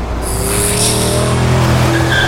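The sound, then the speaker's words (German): A truck speeds around a bend with its engine roaring in a loud, steady drone. A high tire screech rises over the motor, and the noise stays intense throughout. “Der Laster rast um die Kurve.”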